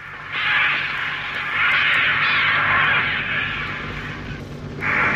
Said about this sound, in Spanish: Otra vez los cuervos.